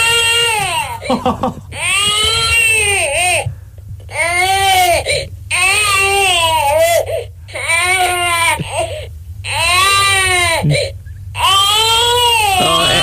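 A baby cries loudly in repeated high-pitched wailing bursts, separated by short gaps for breath, with occasional whimpers and hiccuping catches between the wails.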